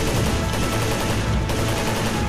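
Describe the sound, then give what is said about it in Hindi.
Heavy gunfire rattles in a firefight between security forces and Naxal insurgents, a dense, unbroken barrage of rapid shots with no pauses. “Firing start हो गई है, आप firing का जवाब firing से देंगे।”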